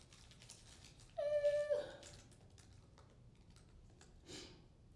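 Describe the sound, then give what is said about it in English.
Computer keyboard typing, faint scattered key clicks at low level, with a brief sustained tonal sound near the start that is louder than the typing. “Hear me typing away.”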